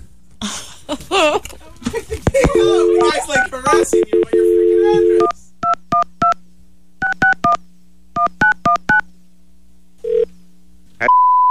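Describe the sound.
Telephone line sounds after a call drops during a pizza order: a brief garbled voice and steady tones give way to three quick bursts of touch-tone dialing beeps over a low hum, ending on a held tone.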